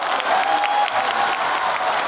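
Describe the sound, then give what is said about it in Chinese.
Audience applause at a crosstalk comedy performance, a steady, dense wash of clapping that stays at an even loudness from start to finish. “接下来，孟鹤堂老师给大家带来太平歌词，掌声有请。”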